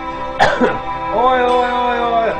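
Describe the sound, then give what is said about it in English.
A man with Tourette's tics coughs once in a short, harsh burst, followed by a steady held voiced sound that continues to the end. “The reason why I think this could be real is because he's kind of coughing and doing, like, normal Tourette's tics.”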